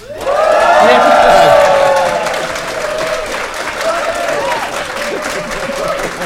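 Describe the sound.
Audience applause and cheering at a live conference event in downtown Manhattan, New York: a loud swell of clapping with whoops peaks in the first two seconds, then eases into steadier, lighter applause.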